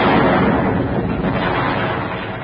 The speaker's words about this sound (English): I'm tied to this barrel of exploding saxophones.